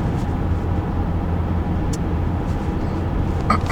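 Low, steady road rumble comes from inside a car driving home from work in the evening. The hum is constant, with a couple of faint clicks toward the end.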